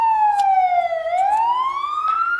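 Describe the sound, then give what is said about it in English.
A fire truck siren, switched on by a firefighter on request, wails loudly and continuously. Its tone sweeps steadily downward, then climbs back up in a smooth rising glide. “Could you do us a favor and turn on emergency lights and activate the siren for us, please?”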